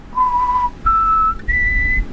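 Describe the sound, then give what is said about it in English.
A person whistles three clear, sustained notes, one after another with short gaps. Each note is held steadily and sits higher than the one before, and no other sound is heard. “Was it whistling? Was it? I got a degree in whistling.”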